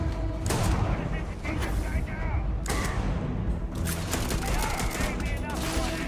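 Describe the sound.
Gunfire in Starfield video game combat: dense, continuous volleys of sharp shots with a few brief mechanical clanks mixed in, staying loud and steady throughout.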